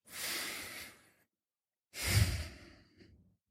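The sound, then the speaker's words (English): A deep breath, made as two long, breathy rushes of air separated by a short pause. The second is fuller and trails off gradually, soft and alone. “Let's take a deep breath with me.”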